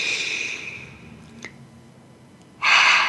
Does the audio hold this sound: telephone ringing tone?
no